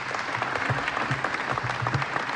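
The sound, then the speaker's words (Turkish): Concert audience applauding at a Turkish folk music concert, a dense, steady patter of many hands clapping at an even level throughout. “Alkışlar devam ediyor”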